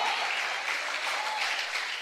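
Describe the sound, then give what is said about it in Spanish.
A church audience applauds, giving a steady wash of dense clapping for the whole short stretch. “Dale un aplauso al Señor, hombre.”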